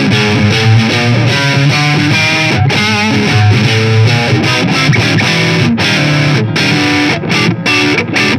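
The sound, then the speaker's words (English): A Squier electric guitar played through one pickup gives heavily distorted, loud chords and riffs with short breaks between phrases, alone and without voices. “So I'm pretty surprised by how good this actually sounds. For the value of money, Squires are pretty good guitars.”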